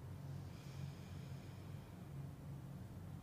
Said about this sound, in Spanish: vamos a hacer tres respiraciones profundas. Inhalamos, cierras tus ojos. Ah. Exhala. Exhala por la nariz. Inhala.